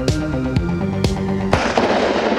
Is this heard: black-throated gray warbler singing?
no